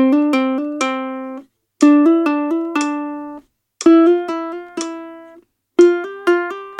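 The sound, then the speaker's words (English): A double mordent ornament played at 60 beats per minute: quick alternations between neighbouring pitches settle onto a held note, heard in four clear, bright melodic groups separated by short silences, the last cut off. “That's a double mordent. If I did that at 60 beats per minute, it would sound like this.”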